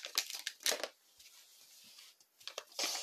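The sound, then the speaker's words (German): Crinkling and tearing of a trading card pack's wrapper as it is opened, in several bursts of dry rustle with a quieter pause in the middle. No voices are heard. “Komm, wir öffnen auch noch den anderen, das andere Pack, damit wir so alle vergleichen können.”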